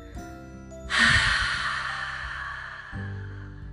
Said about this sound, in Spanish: Inhala, uno, dos, tres, sostén, tres, dos, uno, exhala.